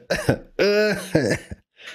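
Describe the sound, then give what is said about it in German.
A person imitating a cartoonish coughing fit: a quick series of loud, voiced, groaning coughs, then a short breathy final burst. “Oder man hustet die ganze Zeit wie Peter Griffin”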